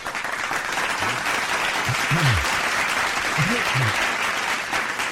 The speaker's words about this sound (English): ladies and gentlemen, please put your hands together for the one, the only, almost 93 years old now, Mr. William Shatner.